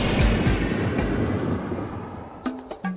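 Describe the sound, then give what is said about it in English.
An airplane takes off in a sound effect: a loud, broad jet roar that slowly fades away. A voice starts up in the last moments. “Attention passengers, please fasten your seatbelts, put your seatbacks and sleeping pets in their full upright position, and prepare for takeoff.”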